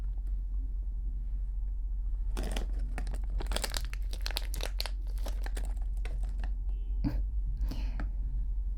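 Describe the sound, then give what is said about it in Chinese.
Crinkling of a wrapper being peeled off a homemade liqueur-filled chocolate: many sharp, crackly bursts of crumpling plastic or foil come in quick irregular clusters after a quiet start. “好了好了，快拆开来尝尝吧。”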